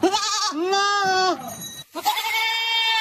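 Goats bleating as a herder drives them along, loud, wavering, nasal cries following closely, then a short gap before another long bleat.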